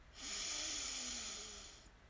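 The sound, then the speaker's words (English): Deep breath drawn in during a guided breathing exercise, a long airy hiss that swells quickly, holds for nearly two seconds and then tapers off, with no talk. “Deep breath in. And out. Get that stale air out. Deep breath in.”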